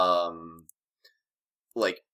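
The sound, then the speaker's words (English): Computer mouse clicks picked up by a microphone: a few faint, sharp ticks fall in the pauses between stretches of a man's speech. “I'm trying to click through here. Sorry if there's my, mic's picking up my, mouse.”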